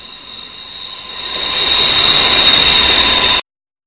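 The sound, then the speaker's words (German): An S-Bahn commuter train builds from a low rumble into a loud, steady roar with a piercing high wheel squeal, then cuts off abruptly near the end. “Steig in die S-Bahn ein und fahr nach Hause.”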